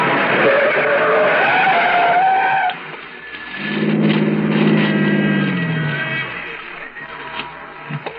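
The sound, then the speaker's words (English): A yellow taxi skids around a snowy Manhattan street corner and comes to a stop astride a snowbank. A high, whining squeal gives way to a lower, rumbling tone that drops in pitch and fades as the car settles. “A yellow taxi spins around the corner at 103rd and West End and settles to a stop astride a brown snowbank piled higher than the curb.”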